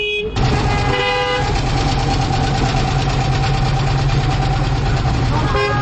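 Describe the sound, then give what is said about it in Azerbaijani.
Traffic squeezing through a narrow lane past roadworks, where part of the road is closed and the asphalt is dug up to lay a water pipe: a loud, continuous rumble and drone of vehicle engines that never lets up. “Belə ki, hər iki tərəfə gedən maşınlar balaca dar bir yoldan keçir.”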